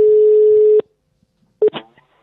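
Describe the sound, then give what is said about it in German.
Telephone tones: a steady, loud line tone holds and then cuts off abruptly. After a short silence come a brief beep and a few quick dialing clicks. “Komm, dann schnappen wir mal das Telefon und klingeln mal durch.”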